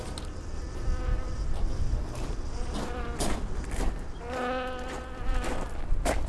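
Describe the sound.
Bees buzz steadily around a set of eight beehives, a dense, continuous drone with a few louder, clearly pitched passes as insects fly close.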